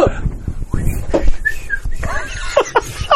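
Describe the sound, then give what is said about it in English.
Someone trying to whistle while smiling: a few brief, breathy, wavering whistle tones break through amid chuckles and snickering, with voices in the background. “It's hard to whistle when you're smiling.”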